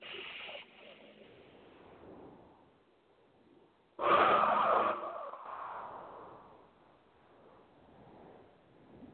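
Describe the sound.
Slow, deep breathing during a breathing exercise: a soft breath at the start, a long quiet stretch, then a louder rushing exhale that trails off slowly. The whole sequence is faint and airy.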